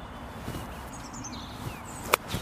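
A single sharp crack of a golf club striking the ball from a poor lie toward the green, brief and bright against a quiet background of faint rustling.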